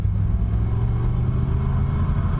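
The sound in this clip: A car drives with a steady, continuous low engine rumble and no talking, holding an even level throughout.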